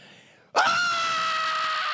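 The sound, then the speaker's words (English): A voice imitates a child screaming at a toy store: after a low murmur, a single high scream bursts in abruptly and holds loud and steady at a nearly even pitch to the end. “Ah! Starts screaming and yelling.”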